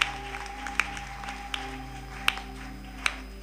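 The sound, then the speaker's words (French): Church audience claps in an even, slow beat, sharp single claps spaced under a second apart over a sustained low droning tone. “Est-ce qu'on peut encore acclamer pour le Seigneur?”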